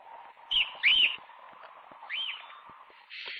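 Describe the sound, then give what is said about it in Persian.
A bird chirps a few bright, quick notes that sweep up and down, two close together near the start and another after a pause, over a faint low hum. “به اون پرنده کاری نداشته باش.”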